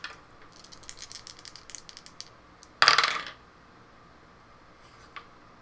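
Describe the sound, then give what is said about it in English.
Dice rolled across a table during a tabletop roleplaying game, a brief loud rattling clatter after a few faint light clicks, followed by one soft tick, with no talk. “I almost wish I had a camera pointed at my dice. That's a freaky roll.”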